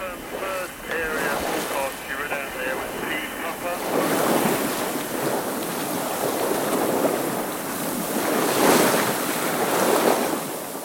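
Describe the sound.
A well-equipped sailing yacht races fast across the ocean on a transatlantic cruising rally, with continuous rushing water and wind noise and surging waves that swell louder in repeated waves of sound.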